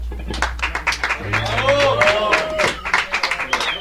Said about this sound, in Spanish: un aplauso para que se caliente esta peña